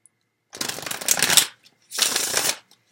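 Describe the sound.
Tarot cards being shuffled in two separate bursts, each a dense, papery flutter of riffling cards, the first slightly longer, with a short silence between them.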